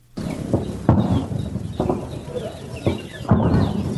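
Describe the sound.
Birds chirp in orchards and gardens of Kandahar's Arghandab district. Their calls run under a continuous background, with a few sharp louder bursts between them.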